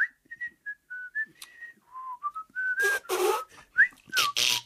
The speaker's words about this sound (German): Und da hat er nach Feierabend vor sich hingepfiffen.